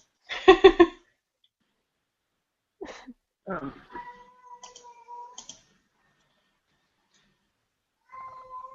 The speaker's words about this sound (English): Is there a really upset cat somewhere? No, you guys can hear that? Yeah. That is my cat.